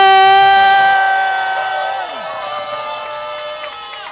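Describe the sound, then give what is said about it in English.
Crowd cheering at Club 400 during a Cubs fan event: a loud, sustained horn-like tone that drops in pitch midway, giving way to a continuous roar of cheering and whooping. “I want you to make some noise, all right? Here we go. We'll cut this in. We are live at Club 400. What do you guys got to say out there?”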